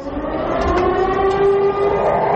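An air raid siren sounds at a NATO bombing commemoration on a square in Niš, a loud, steady droning tone with layered harmonics held throughout.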